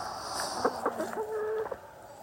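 Hens clucking in a run: a few short, faint clucks in quick, uneven succession, alone over a soft background hiss.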